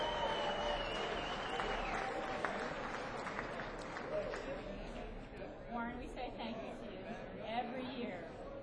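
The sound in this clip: Audience applause welcomes a guest onto the stage at an Asheville Area Habitat event, a dense, steady wash of clapping that carries at an even level through the whole clip with some voices mixed beneath.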